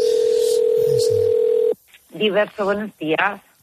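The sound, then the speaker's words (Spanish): Telephone ringing tone on a call to a restaurant to book a table: a steady, mid-pitched continuous tone that cuts off abruptly before a voice answers and talks. “llamada a Diverso para hacer una reserva.”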